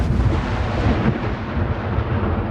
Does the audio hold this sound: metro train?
no